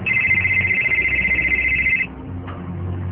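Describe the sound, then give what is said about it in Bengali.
A mobile phone rings with an incoming call during a domestic quarrel: a steady, bright electronic ringtone sounds loudly for about two seconds, then cuts off, leaving a faint low background. “এই যে তোমার Lamia phone করেছে”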